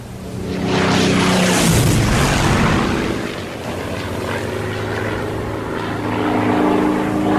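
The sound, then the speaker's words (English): Propeller aircraft noise from a German long-range reconnaissance plane coming out of the clouds off the port bow of a naval vessel: a loud, broad drone that swells over the first two seconds and then holds steady to the end. “Aircraft off the port bow!”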